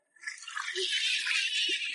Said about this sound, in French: Alors, c'est l'eau de mer qu'on voit au robinet